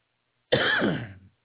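A single harsh cough, lasting under a second, bursts out alone and then stops abruptly in otherwise quiet surroundings.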